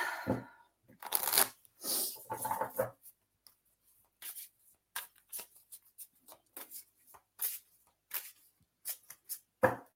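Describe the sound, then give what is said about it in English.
Cards being handled and one pulled from a deck make many short, dry bursts of rustling and slapping, irregularly spaced and separated by quiet gaps. “So what I'll do is I'll pull one card for you and then we will move forward as well.”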